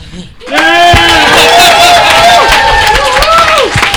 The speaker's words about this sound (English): applause. I've been moderating for a very long time, and that was the best I've heard.